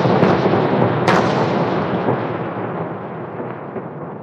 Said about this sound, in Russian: Я кидал 4-ю партию, когда заряженные на 10 секунд первые начали взрываться.